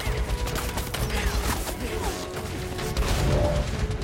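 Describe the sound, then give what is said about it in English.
Rapid machine gun fire from a helicopter-mounted gun sweeping the ground in an action scene, rattling in dense bursts mixed with heavy mechanical clatter and crashing impacts, loud and continuous throughout. “Connor is in a helicopter sitting behind a mounted machine gun. Shots pepper the ground around the sprinting Marcus.”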